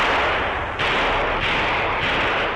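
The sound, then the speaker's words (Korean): Gunfire echoes from the end of a street as a loud, continuous roar of noise. A few heavier booming bursts rise out of it at roughly even intervals, with no voices. “거리 한끝에서 총소리가 울려왔다.”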